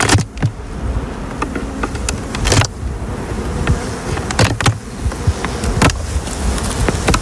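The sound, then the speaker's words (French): Honeybees buzzing around a beehive fitted with a honey super, a steady insect drone broken by a few sharp clicks and knocks; no voices. “On se met derrière la ruche, là, justement, pour éviter d'être dans le passage. Je me mets derrière, hop. Juste, je fais ma curieuse et je regarde si elles rentrent dans la hausse.”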